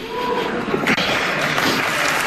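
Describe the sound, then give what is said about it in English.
Audience applause: a dense, continuous wash of many clapping hands that stays loud and steady throughout. “Who's applauding that? Who's applauding?”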